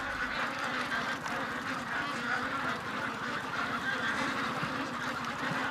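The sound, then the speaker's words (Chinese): Fattened ducks quack at a duck farm on the last day of fattening, a dense, continuous chorus of overlapping nasal calls at an even, moderate loudness with no pauses. “这是育肥的最后一天。看着一只只膘肥体壮的鸭子”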